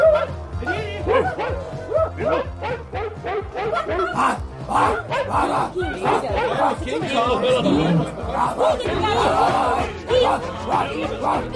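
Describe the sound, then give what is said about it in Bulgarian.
A dog barks and yips repeatedly under steady overlapping talk from several people, its short bursts scattered through the whole clip and partly masked by the voices. “Това пък откъде се появи? Това е кучето на Микела.”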